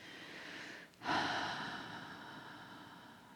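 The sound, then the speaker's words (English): A soft exhale during a guided breathing exercise swells after a brief pause, then tapers slowly over about two seconds. It stays quiet and airy throughout. “And then another breath in, and this time exhale through your heart center.”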